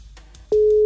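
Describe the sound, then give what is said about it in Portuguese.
A telephone ringback tone on a mobile call: after near-silence, a single steady mid-pitched electronic tone starts about halfway through and holds loudly, unbroken, to the end. “Vamos lá. Primeiro toque.”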